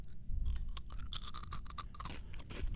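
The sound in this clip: Crunchy chewing of a snack mix: irregular crisp crunches and grinding bites follow one another closely, fairly loud and with no talk.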